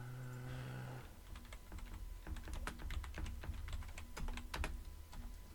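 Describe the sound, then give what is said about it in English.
Rapid, irregular typing on a computer keyboard: many sharp, light key clicks in uneven bursts, with no talking. “if I can type”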